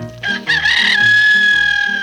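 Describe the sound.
A rooster crows once, a loud, bright call that opens with a short burst and stretches into a long held note, set over a light musical backing.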